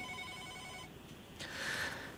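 A telephone rings on a radio call-in line with a bright, steady electronic tone for nearly a second, then falls silent briefly before a second brighter burst of ringing.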